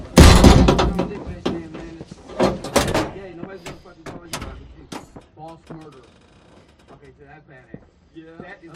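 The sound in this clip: A door is shut with a loud, heavy thud at the very start, followed by scattered knocks, clicks and faint voices that grow quieter.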